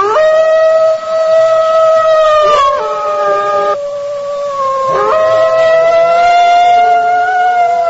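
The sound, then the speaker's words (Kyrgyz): Wolves howl in the Alai mountain region during hunting season, a series of long, sustained wailing tones with a few sliding breaks in pitch, loud and continuous throughout. “Алай жергесине күгүм талаш жеткенде кашабаңдын улуганы кадимкидей жаңырып турду.”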